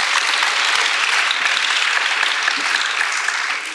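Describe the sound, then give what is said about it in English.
Audience applause welcoming an artist guest at an exhibition event: dense, steady clapping from a crowd that holds at an even level and tapers off slightly at the end. “Big hand, everyone.”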